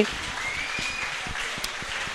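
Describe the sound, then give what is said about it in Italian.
Applause from an audience, a soft, steady patter of clapping that stays fairly even throughout, with a few slightly louder claps. “Grazie. Stanno applaudendo noi.”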